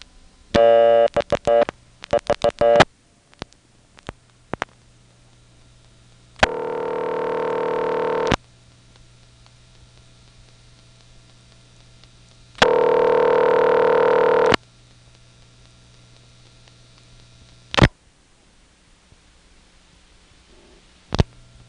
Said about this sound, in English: Okay, so it's a non-working number. That means I can dial it without fear that I'll bother somebody. Let's call 3411.